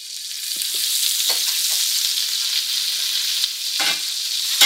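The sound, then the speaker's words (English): Butter sizzles in a hot pan for cooking fish fillets: a steady, bright frying hiss with a few faint crackles and pops, no talk. “So the butter's going in.”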